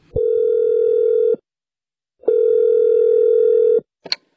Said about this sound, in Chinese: 别急，我呀给装修公司打一电话问问。